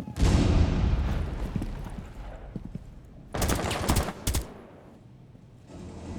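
Automatic gunfire from a heavy-recoil gun in a video game shooter: a loud opening volley trails off into scattered shots, then two sharp, dense bursts of rapid fire follow.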